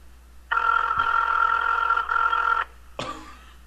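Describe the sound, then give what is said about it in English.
A phone ringtone plays, a harsh, buzzy electronic tone that sounds like retching. One long burst breaks briefly partway through, then a short burst follows after a pause. “I like how this ringtone sounds like someone throwing up. It sounds like a computer vomiting.”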